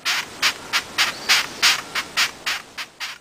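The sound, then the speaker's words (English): Rhythmic rasping chirps from a long-horned beetle, a quick regular train of short scratchy squeaks at roughly three per second, sharp and bright with quiet gaps between them. “That sound was... A long-horned beetle. A long-horned beetle.”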